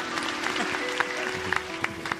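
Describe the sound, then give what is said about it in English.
Audience applause, moderate and steady, with a few sharper individual claps standing out over a constant low hum. “Let's applaud like it's happening here. I love it. Everyone start applauding.”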